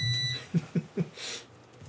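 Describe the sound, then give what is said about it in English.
A driveway alarm gives three short, low buzzing beeps in quick, evenly spaced succession, followed by a brief soft hiss, faint over quiet background. “driveway alarm.”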